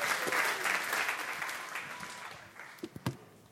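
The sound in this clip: Audience applause welcoming a speaker to the front at a church service: a dense, steady wash of clapping that thins out toward the end, leaving a few scattered louder claps.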